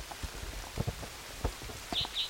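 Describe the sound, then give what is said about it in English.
Rain falls at a creek during a spotted towhee recording, with soft scattered drops and a few duller taps over a faint hiss, plus two brief high chirps near the end. “Raining.”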